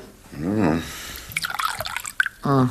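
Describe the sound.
Water poured into a glass, splashing and trickling for about a second between short stretches of voices.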